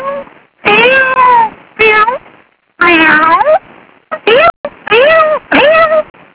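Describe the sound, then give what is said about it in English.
A person's voice imitates a cat meowing, producing a series of about six or seven drawn-out, wavering meows, some long and some short, separated by brief pauses. “I decided to bark a little bit, you know, and maybe like the puppy, you know, or maybe the kitty cat”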